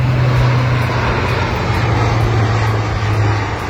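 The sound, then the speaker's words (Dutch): Loud, continuous engine drone of a military transport aircraft flying low during a defence training exercise. A steady low hum sits beneath a broad roar that holds level throughout and eases slightly at the end. “Vanaf maandag gaat de Defensie 2 weken lang trainen met militaire transportvliegtuigen. En die mogen dan ook laag vliegen.”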